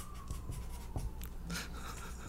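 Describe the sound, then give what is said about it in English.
A pen writes across paper in a few scratchy strokes, with soft rasping friction above a steady low background hum. “What are you writing down over there?”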